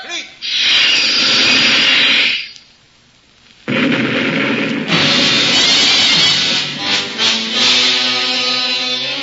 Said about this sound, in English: Torpedo one. No, Captain, they won't have a chance. Fire!